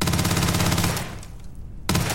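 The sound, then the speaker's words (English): Laser gun shots from a video game fire in a rapid, loud stream of pulses, fade into a short pause, then start again just as fast. “The laser here. I shoot a laser gun a couple times. It sounds pretty good.”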